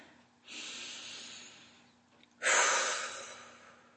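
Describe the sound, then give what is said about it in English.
Two deep, slow breaths in succession, each a soft, breathy rush, the second stronger and louder than the first, with no talk over them. “I am closing my eyes, and I'm starting with some deep breaths.”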